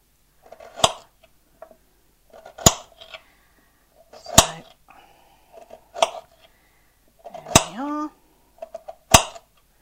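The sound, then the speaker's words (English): A knife chops through an unpeeled carrot in six sharp, crisp strikes spaced about a second and a half apart, with a voice talking softly in the gaps between cuts. “Moving our fingers along the carrot a little at a time, putting the knife just above our fingers, moving your hands away and chop.”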